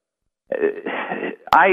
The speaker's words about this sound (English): I'm not going to pick it up. You're so rude. I can't believe people would call in while you're on the radio.